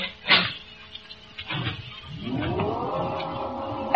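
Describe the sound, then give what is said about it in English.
An elevator in a radio drama starts up in a City Hall building. A couple of dull thuds come first, then a motor whine rises in pitch and settles into a steady hum. “Take my elevator, Sergeant. It's the only one in service.”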